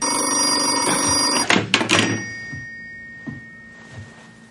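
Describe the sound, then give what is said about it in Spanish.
Telephone ringing in steady bright electronic tones, cut off abruptly by a couple of clunks as the handset is handled, then faint knocks in near quiet. “Fritz descuelga y cuelga el teléfono.”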